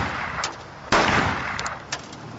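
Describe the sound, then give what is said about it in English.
Gunfire from a loaded handgun: one sharp, loud bang stands out among a few fainter cracks, with no voices. “I got a loaded handgun right here. I'm going to start firing this off.”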